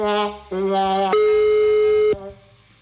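A phone ringtone playing a melody: three sustained electronic notes, each at a different pitch, the last held longest before it cuts off abruptly.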